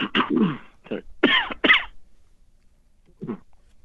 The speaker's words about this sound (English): Yeah, sorry, just a little bit of a cough.